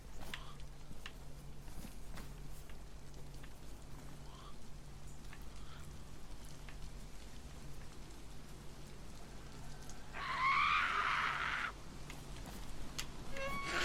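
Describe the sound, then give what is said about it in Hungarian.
Rain falling in a steady, even patter throughout, with a cat meowing once, loud and clear, near the end. “Oh no, elkezdett esni az eső.”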